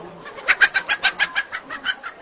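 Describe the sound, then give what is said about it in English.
Chickens clucking in cages at a market in central Abidjan, a quick, steady run of short, bright clucks repeating about a dozen times over a low background hum. “At Trècheville's Grand Marché in central Abidjan, chicken vendors standing beside cages filled with their livestock await customers.”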